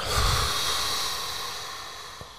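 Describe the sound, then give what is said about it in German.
A deep exhale of breath, a broad breathy rush that starts strong and slowly fades over about two seconds, with no talking. “Einmal tief einatmen. Ich habe noch nicht ausatmen gesagt. Oh, sorry. Ausatmen.”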